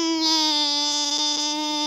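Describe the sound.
A small child cries in a toy shop, a single sustained wail held at a steady pitch with bright, ringing overtones, loud and alone throughout.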